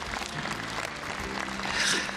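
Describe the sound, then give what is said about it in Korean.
An audience applauds steadily at a ceremony attended by Buddhist monks and foreign diplomats. The clapping is dense and continuous throughout, swelling slightly near the end, with no talk over it. “다시 한번 감사의 박수 드리겠습니다.”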